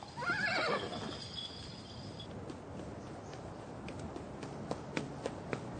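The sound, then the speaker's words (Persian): A horse whinnies at the start while a horse-drawn cart moves along, then a steady rumbling wash continues with a few sharp clops near the end. “گاری به راهش ادامه میده”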